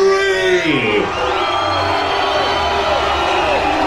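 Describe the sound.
A party crowd screaming and yelling together, loud and unbroken, with strained voices sliding in pitch over a dense roar.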